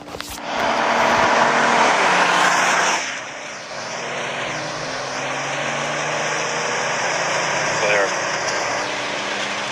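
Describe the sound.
Engine roar from a car being driven fast, loud and steady for the first few seconds, then settling to a lower, continuous drone with a faint high whine on top.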